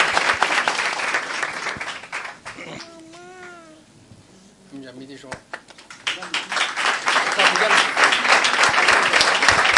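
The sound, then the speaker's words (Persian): Audience applause for a winning team at a cup presentation: dense clapping at the start fades into a quieter stretch with voices, then rises again into loud, sustained clapping. “افتخارشون دست بزنین”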